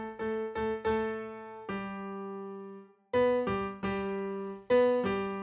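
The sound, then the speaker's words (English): Plain solo piano notes outline a simple three-note melody of A, G and B, struck one at a time with clear ringing decays: a few quick notes, a long held tone, then a cluster of short notes. “it sounds like this if you just play it on piano”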